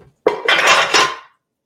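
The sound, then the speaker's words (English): Spoon scraping and clanking against a pot while vanilla is stirred into hot, bubbling caramel with baking soda: one loud, rough burst of stirring about a second long, with no talking. “So I'm going to stir this in and the vanilla. And I'm going to stir.”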